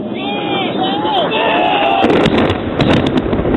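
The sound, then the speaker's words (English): Bombs drop and explode on Mazdrak: a dense, rumbling roar broken by several sharp bursts. Before it, a voice speaks over a thin, radio-like channel. “confirm that's bombs dropping on Mazdrak”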